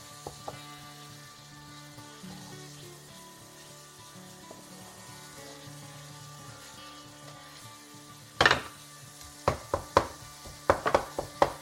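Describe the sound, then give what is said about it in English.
Supermarket beef mince frying in a pan for bolognese as it is broken up: a steady, even sizzle, then a late run of sharp utensil knocks and scrapes against the pan. “I'm just breaking up some of the larger pieces. Sometimes when you buy mince from the supermarket, it does have quite a lot of water added to it.”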